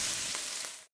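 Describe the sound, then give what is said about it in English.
Spam pork frying in a pan, a short, fairly faint sizzling hiss with fine crackle that holds steady for under a second, then cuts off abruptly. “hear that? That's the Spam brand singing you a love song. Spam, sizzle, pork, and mmm.”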